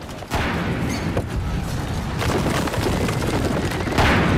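Artillery fire in an ambush during a siege: a dense, loud barrage of overlapping booms and blasts that bursts in sharply just after the start, then rumbles on continuously with scattered heavier thuds to the end.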